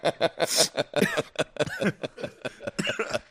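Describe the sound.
A person coughs in a rapid run of many short, harsh bursts, some with a throaty, voiced edge close to chuckling.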